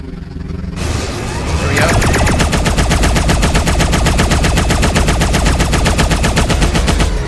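Rapid automatic gunfire from a powered-up turret in a video game, a loud, dense stream of shots that starts after a short rising noise and then pounds on steadily in an even rhythm to the end, with no talk.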